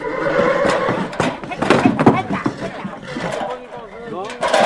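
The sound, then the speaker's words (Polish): Neighing of Polish Konik horses, an old Polish breed once close to extinction, on wet meadows that were once pasture and reed beds: wavering whinnies mixed with people talking and outdoor noise. “To są konie rasowe, rasy konik polski. Jest to taka stara polska rasa, która była bliska wyginięciu.”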